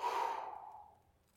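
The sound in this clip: A single deep breath during a guided breathing exercise, breathing in through the nose and out through the mouth: one long airy rush that starts loud and fades away over about a second, heard alone.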